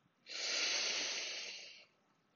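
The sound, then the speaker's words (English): A deep breath during a guided breathing exercise: one long, soft, airy exhale that swells quickly, holds for over a second, then fades, heard faintly on its own with no voices. “Deep breath out, deep breath in”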